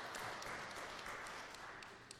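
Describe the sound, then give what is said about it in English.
Applause from a church audience thanking its members during a service: a faint, steady patter of many hands clapping, soft and even throughout. “So give yourselves a round of applause. You all deserve it.”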